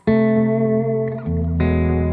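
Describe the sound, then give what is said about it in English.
Electric guitar played through a delay effect set to sound like reverb, ringing out as sustained, thick chords that change twice, with a smeared, washy tail that keeps each chord blooming. “I try to get to the delays to sound like reverb.”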